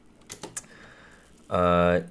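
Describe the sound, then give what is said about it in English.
A few quick, faint keystrokes on a computer keyboard as a stock name is typed in, sharp separate clicks followed by a short voiced sound. “Going over to the last stock here, let's type in Carnival stock.”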